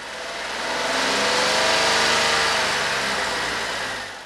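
Steady engine and road noise from a car driving along a road toward Mirachowo. The broad hum swells slightly and then eases, with no voices.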